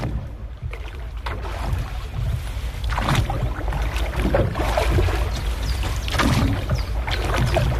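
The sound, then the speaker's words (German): A rowboat moves across a lake, with oar strokes splashing in a slow, uneven rhythm over a continuous wash of water and soft wind-like rumble. “Einfach ein bisschen wirken lassen. Ein Ruderboot auf dem See. Erfrischend, oder?”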